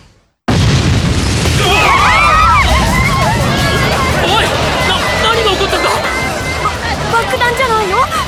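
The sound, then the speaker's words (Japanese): A sudden, loud bomb explosion bursts out of silence, followed by a crowd screaming and shouting in panic as the booming rumble carries on underneath. “爆弾よ、テロリストよ。”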